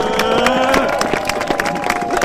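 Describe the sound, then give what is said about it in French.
A crowd at a cyclists' street rally applauds with dense, continuous clapping and some cheering, over a steady tonal drone with voices mixed in. “moi je propose déjà qu'on réapplaudisse tous les gens qui ont fait l'effort de venir en vélo, qui ont bravé le froid et la police pour venir jusqu'ici. Bravo à tous, à tous. Bravo.”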